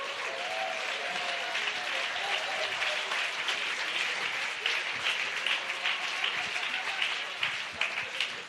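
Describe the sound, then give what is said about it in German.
Congregation applause at a church conference, a thick, sustained wash of clapping at a steady moderate level, with faint voices beneath it. “All right, now give God a big hand, amen. Jetzt gibt Gott einen großen Applaus, komm.”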